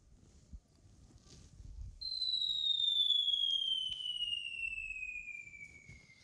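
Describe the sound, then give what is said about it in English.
An incoming bomb falling sound effect: a long, clear whistle glides slowly downward in pitch for about four seconds, following a quiet start with a small knock. “Incoming. It means a bomb.”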